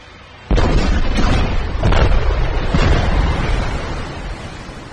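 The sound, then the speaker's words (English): Four torpedoes exploding underwater beneath a Typhoon-class submarine: a sudden heavy boom, then a few further muffled bursts inside a deep, sustained rumbling roar that slowly eases off. “The four torpedoes exploding beneath the Typhoon caused major seawater system flooding.”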